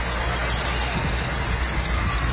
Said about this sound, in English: There's the Farm All. Always got some parade jitters.